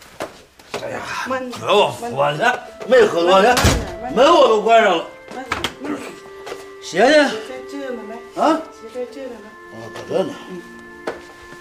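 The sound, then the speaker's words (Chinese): A door shuts with one heavy thunk partway through a Chinese-language drama scene, set amid a late-night homecoming after drinking. People talk loudly almost throughout, and the thud is partly buried under their voices. “没喝多呢，门我都关上了”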